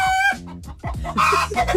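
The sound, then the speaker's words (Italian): A chicken clucks loudly, opening with a long, harmonic squawk and then giving several short, choppy clucks and squawking calls in an uneven rhythm. No voices. “salutiamo anche il pollo che è in regia”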